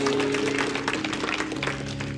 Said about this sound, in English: Well, God bless you. Give the Lord a big hand of praise.